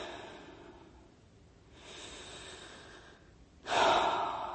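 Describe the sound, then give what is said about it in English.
Deep breathing during a guided breathing exercise: soft, airy breaths that swell slowly, with a quieter breath midway and a louder, rougher breath near the end. No one speaks. “let's do that together for 10 seconds. Just breathe deeply and be.”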